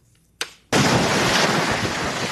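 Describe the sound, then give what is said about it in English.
Roaring wind and pounding surf from a nor'easter storm on the Jersey Shore coast. After a quiet start and one brief burst, a loud, dense, continuous rushing roar suddenly takes over and stays strong to the end. “Tonight, a nasty nor'easter churning off the coast and already unleashing fury on some coastal communities like North Wildwood, New Jersey.”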